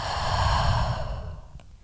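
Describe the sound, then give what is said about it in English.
A deep breath in and out during a guided meditation, heard alone as a long, airy, breathy sigh that swells and then fades away. “So take a deep breath in and a deep breath out.”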